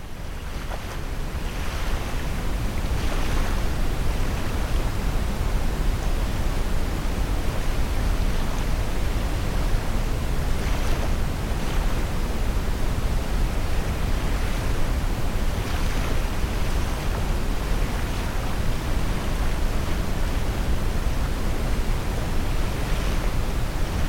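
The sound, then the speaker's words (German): Waves washing onto a beach form a steady, broad rush of surf with gentle swells in intensity and a breezy hiss, continuous and unbroken throughout. “schlenderst du den Strand entlang. Das Geräusch der Wellen begleitet dich.”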